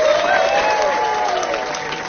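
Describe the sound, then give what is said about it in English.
Audience applause welcoming a performer back in New York City, steady, dense clapping that holds throughout and eases slightly toward the end. “I don't have to tell you what to do. Put your hands together.”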